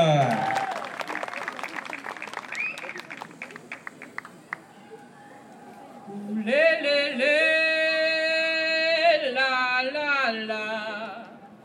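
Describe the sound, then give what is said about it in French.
Applause for a band: scattered claps that thin out over a few seconds, followed by sustained melodic tones of music or singing. “Mesdames, messieurs, un maximum de bruit pour le groupe”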